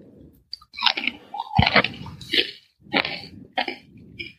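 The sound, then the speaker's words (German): Crunchy chewing of Snyder's cheddar cheese pretzel pieces: several separate, fairly loud crackling bites and chews with short pauses between them. No talking. “ich kenne die Firma Snyders auch und auch diese Pretzel Pieces Cheddar Cheese habe ich jetzt noch nie gehabt als Geschmacksrichtung. Aber, warte, Achtung, wir probieren.”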